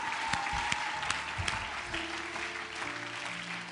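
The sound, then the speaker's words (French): An audience applauding in church, with dense, steady clapping that runs the whole clip at an even, moderately loud level. “Quelqu'un acclame le Saint-Esprit.”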